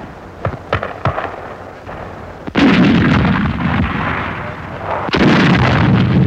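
Gunfire from a captured British artillery piece worked by German paratroopers on the heights at Suda Bay, Crete: several lighter sharp cracks, then two heavy booming blasts, each with a long rolling rumble.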